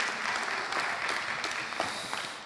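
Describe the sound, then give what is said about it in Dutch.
Audience applause for two musicians coming onto a concert stage, a dense, steady clatter of many hands with a few sharper claps poking out, sustained from start to finish. “Applaus voor deze twee muzici die even de moeite namen om op het podium op te komen.”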